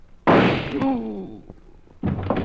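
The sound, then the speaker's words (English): Sudden loud gunshot that cracks in abruptly and decays over about half a second, followed by a short voiced cry and another burst of noise. “Holy mackerel, where'd that shot come from?”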